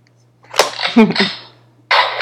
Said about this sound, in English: Shot. That's a shotgun. Okay. I need to have... So, I bought this little sound machine thing from Target.